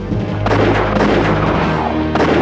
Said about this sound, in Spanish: Los ven y disparan.